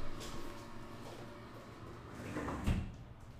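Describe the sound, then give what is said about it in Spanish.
A window being closed sounds faintly over a steady background hum, with soft sliding noises and a dull knock near the end. “Esperen que voy a cerrar la ventana.”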